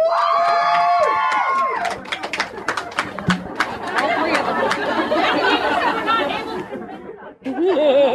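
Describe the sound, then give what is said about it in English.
Live audience at a Harry Potter trivia show responds on cue with loud whoops and cheers that give way to laughter and lively crowd chatter, ending in a brief renewed shout. “If you think he is a Horcrux, make your noise here.”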